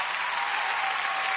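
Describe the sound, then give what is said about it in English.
Studio audience applause on a talk show, a brief, smooth, steady burst of many hands clapping at moderate volume. “And these applause are for you.”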